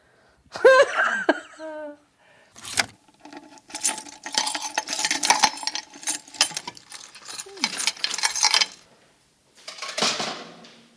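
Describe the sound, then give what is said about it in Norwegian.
A large cardboard box is pulled out and handled, producing scraping, rustling and knocking bursts in several runs separated by short pauses. “Da tar jeg ut en stor pappeske. Gud, så visste ikke at den var så stor.”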